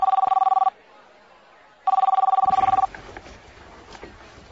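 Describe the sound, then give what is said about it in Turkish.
A room telephone rings unanswered, reached through an operator: two loud trilling ring bursts separated by a pause, followed by faint noise. “Bayan Martin'in telefonu cevap vermiyor. Bir kere daha dener misiniz lütfen?”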